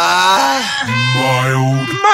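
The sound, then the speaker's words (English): A mild groan of disappointment from a single voice, drawn out for about two seconds, dipping lower in pitch and holding there before lifting slightly at the end. “Mild groan.”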